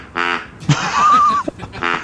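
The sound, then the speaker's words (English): Duck quacking in a park: two harsh, nasal quacks, one near the start and one near the end, with a stretch of rough noise between them. “I quite like that one. Is that a duck? Yes.”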